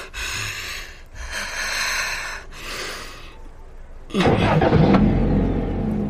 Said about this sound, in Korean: 그럼 운전을 해야지. 시동 걸고 출발해.